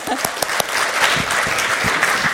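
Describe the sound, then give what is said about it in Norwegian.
An audience applauds at an award presentation, clapping for a user group's year-round work. The clapping is even and dense, with a few sharper individual claps standing out near the start. “Og så tenkte jeg at jeg synes at NUG også fortjener en applaus for det arbeidet de gjør gjennom hele året.”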